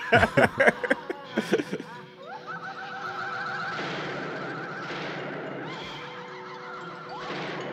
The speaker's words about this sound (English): Cops don't fire their guns like that anymore.